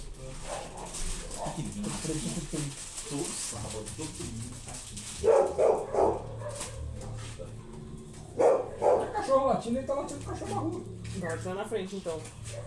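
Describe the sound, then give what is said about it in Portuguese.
A dog barking in the street, a few barks in short bursts mixed in with people talking nearby. “Todo sábado, todo domingo, cachorro latindo, ele tá latindo cachorro na rua.”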